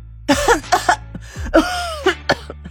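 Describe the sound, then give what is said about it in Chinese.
A woman fakes a fit of choking coughs, a series of sharp, raspy hacking bursts with throaty catches in quick, uneven succession, loud and alone. “她立刻假装呛到的咳了几声”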